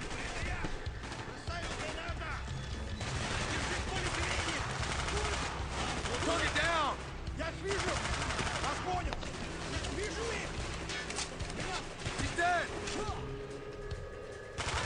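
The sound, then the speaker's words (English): Gunfire in a video game while shooting and reloading from cover: dense, rapid bursts of shots run almost without a break, with voices talking over the action throughout. “lots of shooting and reloading out of cover”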